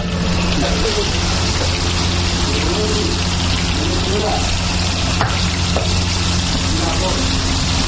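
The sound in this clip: Chapli kebab fries in oil in a karahi pan at a Kabul kebab shop, giving a loud, steady, unbroken sizzle throughout.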